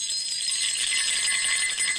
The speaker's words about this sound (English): Crash, crash, chimes crash up the scale. This is the sound of unimaginably huge amounts of plasma exploding off the star, Wanda says.